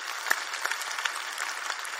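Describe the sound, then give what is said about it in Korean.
Audience applause for a church choir: faint, even clapping from many hands, a soft continuous patter with a few slightly sharper claps standing out. “우리 찬양대에게 박수 한번 쳐주세요”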